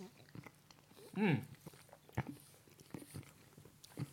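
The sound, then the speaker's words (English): Sugar Puffs cereal is chewed with crisp, irregular crunches and munching, and a brief voiced sound breaks in near the middle. “I'm still working on my sugar puffs.”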